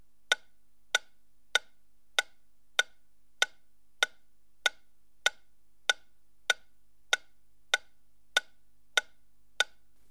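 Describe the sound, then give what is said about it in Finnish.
A ticking test signal played from the centre speaker of a surround setup: sixteen sharp, evenly spaced ticks about 0.6 s apart at an even level, heard alone over near silence. “Nyt tikityksen pitäisi kuulua keskikaiuttimesta ja normaalilla stereolaitteistolla kaiuttimien välisestä keskipisteestä.”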